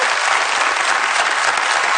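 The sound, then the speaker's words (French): A studio audience applauds a newly introduced team member on a television show. The clapping is dense, steady and loud, with no pause, and carries through the whole short clip. “On applaudit.”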